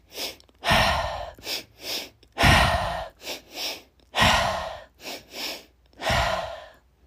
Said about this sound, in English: It's two quick inhales through the nose and one forceful exhale out the mouth. I'll demonstrate. It's intentional and purposeful. Inhale, inhale, exhale.